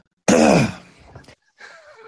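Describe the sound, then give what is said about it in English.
Throat clearing: one harsh, loud rasping burst, then softer throaty sounds trailing off, with a brief quieter noise near the end. “Go ahead and get my Mike Leach throat clear out of the way.”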